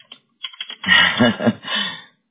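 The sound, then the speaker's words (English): Typing on a computer keyboard, a few light clicks followed by a denser cluster of keystrokes that stops abruptly. “Okay, let's see. Got that in there. Whoops. I didn't type it the same way twice, and it hollered at me.”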